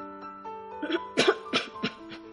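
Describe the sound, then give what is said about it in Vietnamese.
A woman has a coughing fit: a few harsh, rough coughs in a quick, uneven burst that grows louder after a fainter start, heard over a soft tonal background. “Lần này cô bị ho sặc sụa.”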